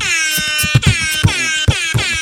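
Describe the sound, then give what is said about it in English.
A rap air horn sound effect: loud, brassy, buzzing blasts repeated in a fast, rhythmic stutter, with no talking. “The rap air horn is one of my favorites.”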